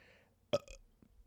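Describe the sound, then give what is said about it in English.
A single short, loud burp bursts out of near silence, then quickly dies away into faint background. “burp.”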